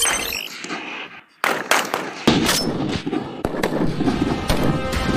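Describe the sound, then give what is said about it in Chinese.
Sharp gunshots from Type 191 rifles at a shooting range in snow, fog and cold, a few loud, crisp cracks spaced irregularly, each ringing briefly into a noisy background. “191式步枪性能硬核，弹道精准，能颠勺的手扣起扳机来，照样弹无虚发。”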